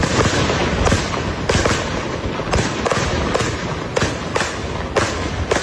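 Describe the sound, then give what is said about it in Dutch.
Fireworks set off at night outside a hotel by football supporters, a dense, continuous crackle punctuated by many sharp, loud bangs at irregular intervals. “Een flinke vuurwerkshow is daar afgestoken.”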